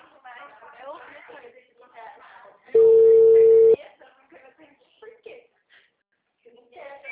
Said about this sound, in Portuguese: Caiu a ligação, né? Caiu, me desculpa, tá?